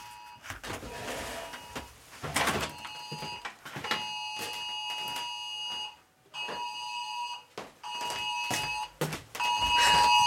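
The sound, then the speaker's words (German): Emergency test alert from an iOS phone on a national warning day: a loud, harsh, multi-tone alarm blaring in repeated bursts separated by brief breaks. “Heute ist Deutscher Warntag. Und man kann in seinem iOS Testwarnungen aktivieren. Und das ist die Testwarnung. Probealarm.”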